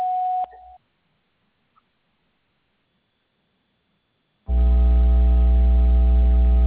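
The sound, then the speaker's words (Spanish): A short electronic beep from a phone voicemail system marks the start of message recording. Silence follows, then a loud, steady, buzzing hum that continues to the end. “Después del tono, grabe su mensaje.”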